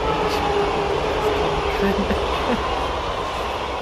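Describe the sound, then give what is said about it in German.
A train passes by beside Lake Biel, sounding as a continuous low rumble with steady rolling noise that stays loud and fairly even throughout. “Ja, und dann fährt schon wieder ein Zug vorbei, hier am Bieler Setzwan.”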